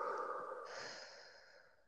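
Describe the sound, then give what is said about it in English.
A person takes a deep breath during a calming moment. A soft, airy rush of breath is heard alone, and it fades steadily over about two seconds. “we're gonna take a deep breath in, we're gonna hold it and out.”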